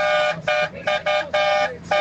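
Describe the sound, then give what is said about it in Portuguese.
Truck horns honking on a highway as a horn salute, a series of loud, sustained harmonic blasts in about five bursts separated by short gaps, steady in pitch and heard without talk. “Aquela buzinada gostosa, vai!”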